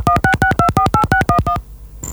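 A rapid, evenly spaced run of about ten touch-tone telephone beeps plays as a mobile number is dialed for a call-in. A brief hiss and a short high tone follow once the line connects.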